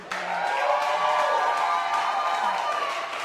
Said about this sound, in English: I would like everybody in the building to give a warm welcome for New York Times bestselling author Zane.